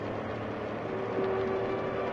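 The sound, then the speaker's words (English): A boat engine gunned at full throttle at sea, giving a loud, steady droning rumble throughout with no break and no voices. “gun the engine and just keep her going till we're out of gas.”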